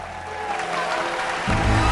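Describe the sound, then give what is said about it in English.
A theatre audience applauds the cast in a standing ovation. Dense, continuous clapping grows louder toward the end. “The audience give the cast a standing ovation.”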